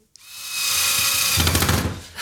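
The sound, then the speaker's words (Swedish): Whirring of a power screwdriver driving screws while a World Cup sign is assembled on a floor, a steady loud buzzing whine of about two seconds that grows coarser near the end before a brief pause and restart, no voices. “Jag hoppas inte jag skruvar rakt ner i golvet.”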